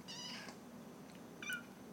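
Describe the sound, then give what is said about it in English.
A foster kitten meows twice, with short, high and faint cries separated by a pause, over a soft background hush. “All the cats are talking now. That's one of my foster kittens.”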